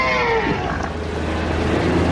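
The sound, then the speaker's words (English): A North Atlantic right whale calls with a low, moaning tonal cry over a dense, constant rumble of background noise. “The call of a North Atlantic right whale.”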